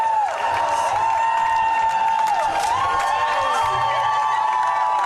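Hundreds of fans cheer at Vienna airport to welcome Austrian classically trained singer JJ home after his Eurovision win. The cheering is loud and unbroken, with shrill cries and whistles sliding in pitch above the roar.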